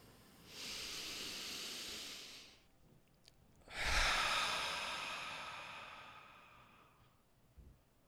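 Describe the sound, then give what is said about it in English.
A deep breath drawn in through the nose, then let out through the mouth: a soft, hissing inhale of about two seconds, a short pause, then a longer exhale that slowly fades. “I'd actually like to start off if you join me in a nice deep nose breath in through the nose and out through the mouth together.”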